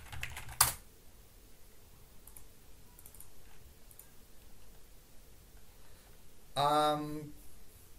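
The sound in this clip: Faint typing on a computer keyboard while writing in a chat, with scattered soft key clicks, one sharper click early on, and a voice briefly near the end.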